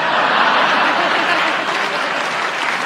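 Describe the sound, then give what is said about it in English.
An audience applauds after a joke. The clapping is loud, dense and unbroken and holds steady throughout. “I think you're utterly mean to applaud that. Honest. But I show you how fair and generous I am, because you did applaud him, and he got a good joke.”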